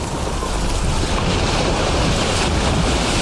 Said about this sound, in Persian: خدای من، این موج از کوهم بزرگتره، هممونو میبله.